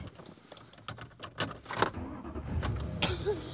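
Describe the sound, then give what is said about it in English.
Quiet car interior sound while driving home, a low road rumble with a few scattered clicks and rattles rising briefly above it. “And I am driving home.”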